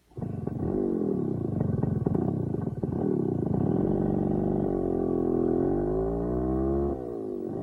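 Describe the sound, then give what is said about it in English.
A vehicle motor drones with a strong, buzzing harmonic hum whose pitch bends and shifts several times. It holds fairly steady in loudness and eases off a little near the end. No voices. “Listening to the fading motor, it struck Cui Ming”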